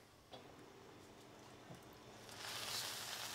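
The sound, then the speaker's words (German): Crêpe batter sizzles on a hot crêpe iron brushed with egg yolk instead of fat, for Breton galettes: a faint, steady hiss with a couple of small ticks, swelling louder toward the end. “Das Crêpe-Eisen wird vorher nicht mit Fett, sondern mit Eigelb bestrichen. Jetzt wartet man, dass es backt.”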